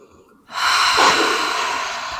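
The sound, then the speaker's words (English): A deep breath drawn in: a steady, airy rush that starts abruptly and stays loud for nearly two seconds, easing only slightly toward the end. “Deep breath.”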